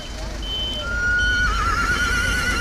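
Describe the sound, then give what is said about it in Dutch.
Horses whinnying on a quiet match day outside the Johan Cruijff Arena, the stadium in Amsterdam. A sustained, high, wavering whinny swells in the second half over a steady low rumble. “Zo rustig dat de paarden hier staan te hinniken omdat ze werkeloos toe moeten kijken.”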